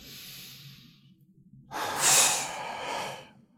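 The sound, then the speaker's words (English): A hard, forceful exhale during a breathing exercise makes a loud, breathy rush lasting nearly two seconds, after a softer, quieter breath. “Now do a really hard breath.”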